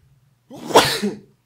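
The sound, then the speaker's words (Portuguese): A single sneeze bursts out sharply and loudly on its own, with a brief intake before it and a rough, breathy tail that fades out after under a second. “vai ficar espirro nesse podcast, vai ficar roto, vai ficar isso aqui, puxada de nariz”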